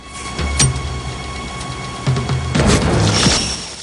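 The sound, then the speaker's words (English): Gunshot in a film scene as a guard is shot, a sharp loud bang near the start followed by further dull thuds and crashing noises. “Forrest shoots the guard, who falls back onto the floor.”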